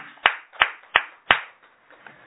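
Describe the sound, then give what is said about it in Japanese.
Hand clapping greets a teacher's 43rd birthday at a gathering: four loud, sharp, evenly spaced claps, followed by a few fainter ones trailing off. “盛大な拍手でございます。”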